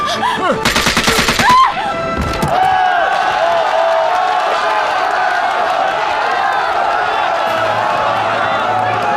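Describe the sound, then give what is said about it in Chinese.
Gunfire erupts in a tense hostage standoff: a quick burst of sharp shots, then a voice cries out over a continuing noisy background. “你还不开枪吗？”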